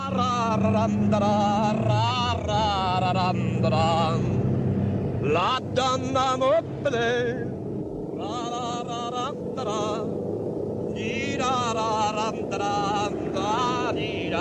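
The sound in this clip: A man's full-throated operatic singing of the Duke of Mantua's canzone from Act 3 of Verdi's Rigoletto, bellowed while driving. Loud sustained sung phrases with short breaks ride over a steady low engine and wind rumble.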